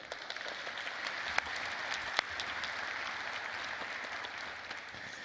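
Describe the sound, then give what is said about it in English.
A church audience in the room applauds, giving a big hand to its online and television audience: steady, dense clapping throughout, with a couple of sharper individual claps standing out. “If you're in the room, would you please give our online television audience a big hand?”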